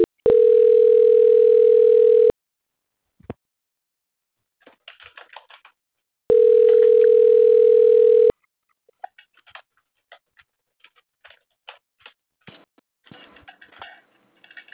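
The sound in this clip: Ringback tone on a phone line during a call transfer: two steady, evenly pitched tones of about two seconds each, about four seconds apart, with scattered soft clicks and tapping like typing between and after them.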